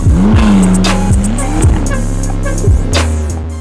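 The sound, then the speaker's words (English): A McLaren sports car accelerates away. Its loud engine note climbs in pitch, then revs on with a few sharp transient bursts. “instead accelerating away in his McLaren sports car.”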